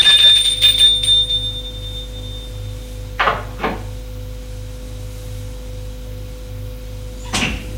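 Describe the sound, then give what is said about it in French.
A doorbell ringing at a woman's front door: a high bell tone fades out over a steady low hum, followed by a couple of knocking clicks and one more a few seconds later. “Il a sonné chez elle.”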